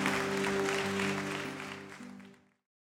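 An audience applauds in a church, a dense, steady wash of clapping over low sustained tones that holds for about two seconds, then thins and fades out to silence.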